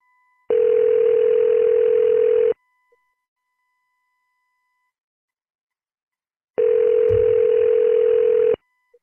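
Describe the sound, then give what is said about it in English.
A telephone line tone sounds on an outgoing call. It plays as two loud, steady, mid-pitched tones of about two seconds each, separated by roughly four seconds of silence, with no other sound around them. “let's make another call.”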